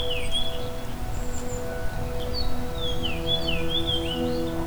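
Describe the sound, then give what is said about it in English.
Melodic song of a fox sparrow, a small, dark, splotchy bird of dense thickets: a few clear, sweeping whistled phrases, moderately faint, over a steady low hum. “It's the song of the fox sparrow. It's very melodic.”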